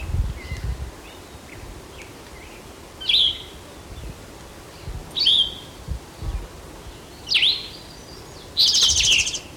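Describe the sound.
A woodpecker calls in a few short, high, chirping bursts spaced a couple of seconds apart, heard over a steady hiss with occasional low thumps.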